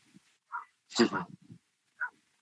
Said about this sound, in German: Da bellt sogar der Hund im Hintergrund, ja? Da bellt der Hund.